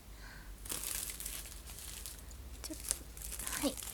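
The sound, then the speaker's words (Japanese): Someone opens a plastic-wrapped package. Faint crinkling and rustling come in several bursts, with light tearing and crackling scattered throughout. “まずは開封をしていこうと思います。”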